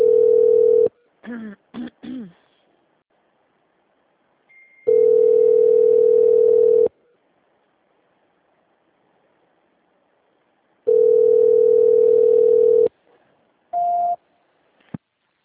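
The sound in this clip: Telephone ringback tone on a line left ringing unanswered after a call transfer: long, steady, loud tones repeat with silent gaps between them, and a few short beeps and blips fall in the pauses.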